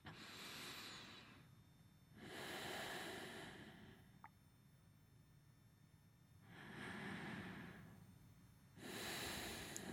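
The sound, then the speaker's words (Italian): Slow breathing through the nose, four faint airy rushes of about a second and a half each, separated by short pauses, heard alone. “comunque provo a farvelo sentire anche dal naso, quindi inspiro”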